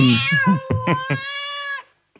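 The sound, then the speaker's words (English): A cat caterwauls in a drawn-out, wavering yowl. A few choppy pulses come first, then a long sustained cry that cuts off sharply into silence. “They're able to vocalize, and their drunken night caterwauling is a memorable experience.”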